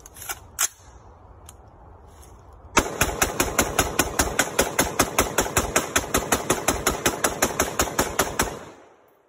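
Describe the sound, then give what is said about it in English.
Gunshots from an AR pistol: two isolated sharp shots, then after a pause a long, steady rapid string of many loud, evenly spaced reports with a ringing tail. “My man is shooting an AR pistol. I get it. It's an AR pistol.”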